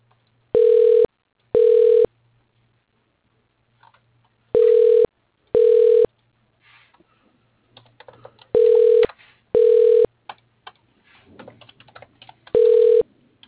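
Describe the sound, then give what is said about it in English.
An automated phone system places a call with seven steady ringing beeps, most of them in evenly spaced pairs. Faint keyboard-like clicking is scattered between the later tones. “Dialing.”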